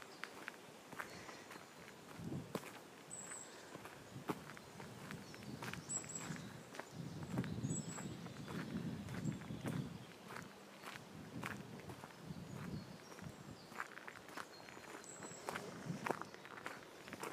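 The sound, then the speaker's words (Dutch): Calm, unhurried walking footsteps: a steady stream of soft, fairly faint steps at an even pace, with no talking. “En ondertussen loop rustig door.”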